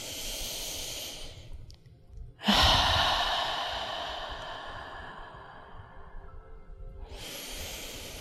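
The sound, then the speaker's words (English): A deep, slow breath: a loud, airy rush that swells suddenly and then fades gradually over several seconds, with softer breathing before it and another breath starting at the end. “taking a deep and slow breath.”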